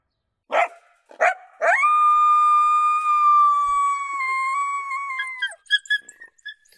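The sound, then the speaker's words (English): Coyote vocals from an electronic call recording: two sharp yips, then one long, steady, high howl holding for about four seconds, followed by a quick run of short yips and barks. “Bustin' Fur Audio Riot. Just shy of 6 minutes in length. Non-stop coyote vocals.”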